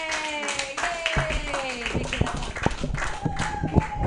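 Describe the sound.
Clapping and cheering from an open mic comedy audience greeting the night's host: a few pairs of hands clap in uneven bursts, mixed with whoops and voices.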